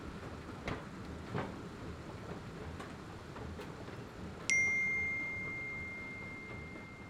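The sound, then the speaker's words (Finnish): A single high-pitched electronic beep tone rings out sharply and fades slowly over a couple of seconds, above faint background hiss with a couple of soft ticks before it. “Kuulit merkkiäänen.”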